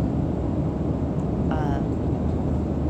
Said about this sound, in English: So right now we're flying back on a plane, and